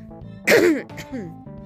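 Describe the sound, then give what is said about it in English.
A single harsh throat clear, short and forceful, stands out between quieter tonal sounds before and after it. “Sorry, I just can't seem to keep the throat clear today.”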